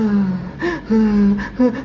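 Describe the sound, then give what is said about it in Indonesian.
A young child cries in a few wavering, tonal bursts with short breaths between them, rising and falling in pitch. “kan nangis ya, dia naik nafas kemudian dia keluarkan, naik nafas dia keluarkan”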